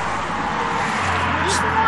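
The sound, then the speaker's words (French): A car pulls up and comes to a stop, its low, steady engine rumble running beneath people talking. “Une voiture s'arrête.”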